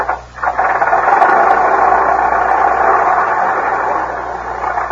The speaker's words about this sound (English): It's a late model. It's a 1910 Stanley steamer.